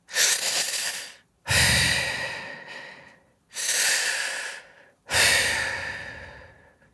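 Breathing of a dying person: four long, airy, rasping breaths separated by short pauses, each swelling quickly and then tailing off, with no other sound around them.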